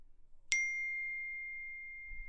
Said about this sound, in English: I don't know why she keeps texting me.